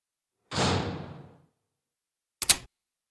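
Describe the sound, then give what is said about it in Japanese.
A front entrance door at a home is pulled shut: a brief swishing movement fades out, followed after a pause by a short, sharp double knock as it closes. No one speaks. “あの、こんな話をするなら玄関を閉めてください。”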